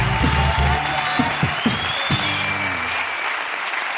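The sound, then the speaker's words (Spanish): A studio audience applauds on a television talk show. The clapping is dense and steady, with a few whoops and some faint voices mixed in, and it gradually thins out toward the end. “Un aplauso para Lidia Valentín.”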